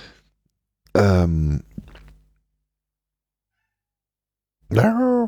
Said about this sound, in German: Nee, das ist die Katze mit der eindringlichen Stimme. Die hat jetzt irgendwie Hunger oder will gekuschelt werden.